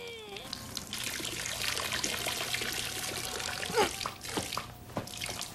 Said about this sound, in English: He hides behind a statue of a naked cherub, then takes a pee himself to replace the missing jet of water. He starts to run dry and has to strain to keep up the flow.